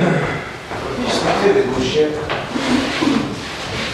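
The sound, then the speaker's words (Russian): A door in a home being pushed shut. It makes a soft wooden sliding and rubbing sound under a person talking steadily. “Сейчас дверь прикрою.”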